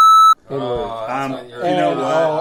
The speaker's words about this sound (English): I'm going to have to beep that out, even though you're quoting somebody else.